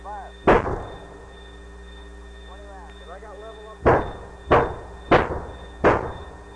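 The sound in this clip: Artillery fires five heavy booms during a fire mission: a single blast, a pause, then four more in quick succession, with a voice heard briefly in the gap.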